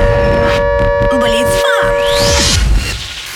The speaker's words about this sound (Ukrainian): повітряна тривога триває. Залишайтеся в укриттях.